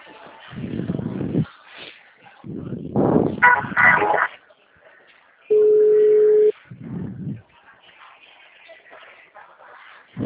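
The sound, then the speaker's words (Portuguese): A steady telephone tone sounds while a call is being transferred: one level, mid-pitched tone about a second long between stretches of talking. “Já estou transferindo a ligação, fica em linha, Márcia.”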